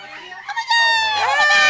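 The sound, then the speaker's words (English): A woman screams in a sustained, high, strained cry that holds steady for about a second after a few shorter vocal bursts. The sound is loud and harsh. “Oh, this dumb bitch won't stop screaming.”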